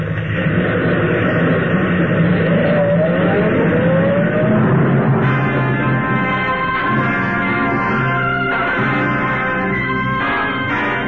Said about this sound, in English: Okay, now head for the George Washington Bridge. I know a nice quiet spot on the other side. Hey, you're pretty low on gas. What are you worried about? You won't have to walk back. Get going.